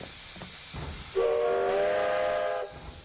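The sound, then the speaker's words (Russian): A steam locomotive releases steam from beneath its wheels as it begins to move, giving a constant hiss with a sustained multi-toned whistle of about one and a half seconds over it. “Из-под колес паровоза выходит пар. Паровоз трогается и медленно катится по рельсам.”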